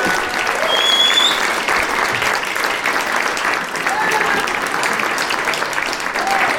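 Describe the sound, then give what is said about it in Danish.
Big, sustained audience applause as a guest is welcomed onto a Danish stage show, a thick steady roar of clapping that carries at high loudness for the whole stretch. “nu skal jeg give en kæmpe stor hånd til en pornostjerne. Giv mig en kæmpe stor hånd.”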